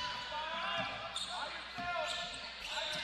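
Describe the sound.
Basketball dribbled on a court during a game, a few dull thumping bounces spaced irregularly beneath a voice speaking steadily.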